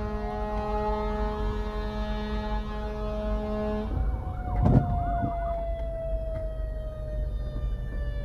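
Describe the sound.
A small fire truck siren wails continuously with sustained steady tones. About halfway through there is a brief louder bump, and after it a single tone glides slowly downward in pitch. The level stays fairly even throughout.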